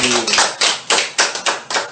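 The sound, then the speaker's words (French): A church audience clapping during worship, sharp bright claps in a steady rhythm of roughly three per second, loud and regular, with a voice faintly present at the start. “Applaudissez, applaudissez pour le Seigneur.”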